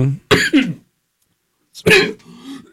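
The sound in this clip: Someone choking up mid-conversation coughs and clears the throat in two rough, loud bursts separated by a silent pause, the second ending in a low, voiced rumble.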